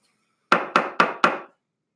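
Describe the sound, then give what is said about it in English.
Four sharp gavel strikes on wood, evenly spaced about a quarter second apart, each a crisp knock with a brief ring, heard alone against silence. “Gavel. You have been judged.”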